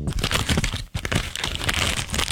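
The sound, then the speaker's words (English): A gift is wrapped or unwrapped in cellophane wrap, making dense, continuous crinkling and crackling that breaks off briefly once and then resumes just as busily. “Is it wrapping or unwrapping a gift in cellophane wrap? Okay. Wrapping or unwrapping a gift in cellophane wrap.”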